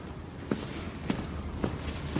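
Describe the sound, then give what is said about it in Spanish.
Footsteps of someone walking away: four soft, evenly paced steps, each a faint dull thud against a quiet hissing background, with no voices. “Se aleja.”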